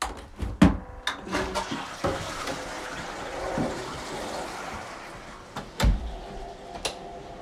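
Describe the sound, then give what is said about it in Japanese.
A toilet flushes. A few sharp knocks and clunks are followed by a moderate, rushing wash of water that tails off, with another couple of knocks near the end. “綺麗になりました。流します。”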